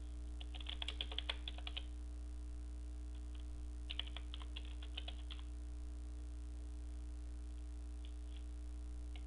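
Computer keyboard typing in quick bursts of faint keystroke clicks, separated by pauses, over a steady low hum.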